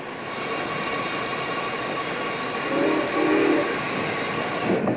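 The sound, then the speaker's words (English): A passenger train chugs past a harbor with a steady, dense rumble and rattle that holds throughout, swelling slightly midway and again near the end. “Now, as a passenger train chugs past the harbor”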